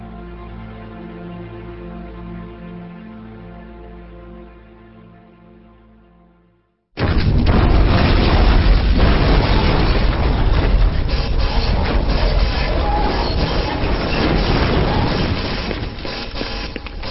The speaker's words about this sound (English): Something exploded in a warehouse, boss.